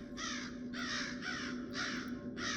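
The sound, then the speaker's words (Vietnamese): Crows caw overhead in a series of loud, harsh calls, each lasting around half a second, with short gaps between them and no voices. “Từ phía trên tầng không, tiếng quạ tự dưng vang lên một cách ma quái, càng làm cho khung cảnh trở nên ngột ngạt đáng sợ.”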